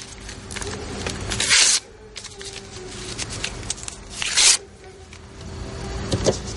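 Paper rustles as a handwritten letter is folded and torn up, with two brief, rasping bursts of tearing standing out against a low, steady background.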